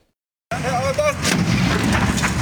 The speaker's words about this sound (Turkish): Konteyner işte böyle patladı.